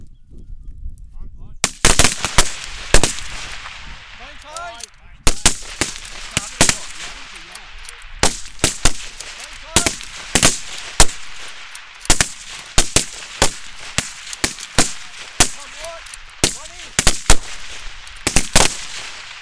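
Gunshots ring out during a rapid-fire shooting serial on a range, five shots per shooter within fifteen seconds: many sharp, loud cracks in an irregular rhythm, some closely spaced and overlapping, with short quiet gaps between.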